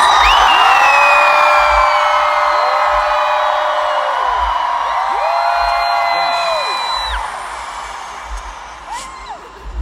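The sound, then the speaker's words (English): A huge concert crowd in Moscow screams loudly and continuously, a dense roar of high voices that holds for several seconds and then gradually fades. “So on the count of three, give me your loudest scream.”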